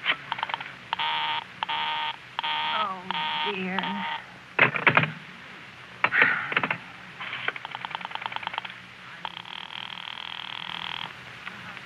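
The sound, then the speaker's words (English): Telephone dialing while trying to reach a number that keeps coming up busy: many short tone bursts in quick succession, then further scattered tones and clicks, ending in a longer sustained tone. “Operator, I've been dialing Murray Hill 70093 now for the last 3/4 of an hour”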